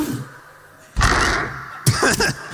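A door is pushed open and held, giving a sudden broad burst of noise followed a moment later by a couple of sharper clunks.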